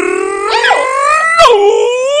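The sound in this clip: A person imitates a howling dog with a loud, sustained harmonic howl that wavers and swoops in pitch, with a sharp upward bend near the start and another dip about two-thirds through, heard alone.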